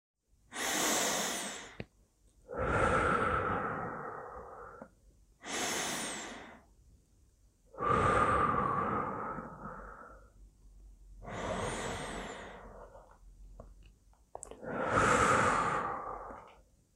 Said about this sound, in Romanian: În primul rând, inspir de 3 ori adânc, încetinind timpul, corpul și gândurile.